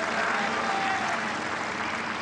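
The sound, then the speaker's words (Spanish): Steady applause from an audience at a Mexican political address, dense, continuous clapping at a moderate level that fills the whole clip without a break. “un aplauso a los migrantes, a nuestros paisanos”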